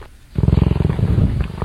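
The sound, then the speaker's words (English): Cheetah purring: a rapid, rhythmic low throbbing of about a dozen pulses, loud and alone, starting after a short quiet moment. “What animal do you think actually purrs like that? Big cat. Cheetah. Congratulations. You're absolutely 100% correct.”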